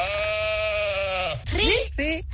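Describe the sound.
Goat bleating, played as an animal call in a guessing game: one long, steady, wavering bleat, then a few shorter quavering calls in quick succession, loud and clear.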